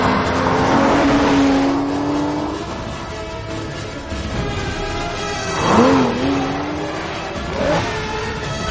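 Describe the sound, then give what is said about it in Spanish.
Car engines race along a lonely road through dark countryside during a chase: a steady, loud motor drone with bursts of revving, and a rising engine whine near the end. “Persigue a los dos coches por una carretera solitaria que atraviesa la oscura campiña pierde a los coches de vista.”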